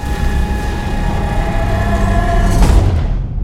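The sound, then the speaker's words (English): A heavy incinerator door is shut, landing as one loud clank near the end over a continuous deep, droning rumble that stays strong throughout. “Megan shuts the incinerator door.”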